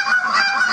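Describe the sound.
Imitated goose honks from a man using championship goose calling technique: a few quick, nasal, reedy honks in close succession, loud and without talk.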